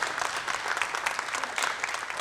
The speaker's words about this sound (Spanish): ¡Aplausos! Bien.